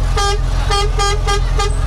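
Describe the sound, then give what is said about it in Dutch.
A car horn honks in five short, evenly spaced blasts at a red light, over a steady low engine rumble. “Toeter, hoor. Iedereen kijkt hier. Ze horen de toeter. Ze horen jullie toeter.”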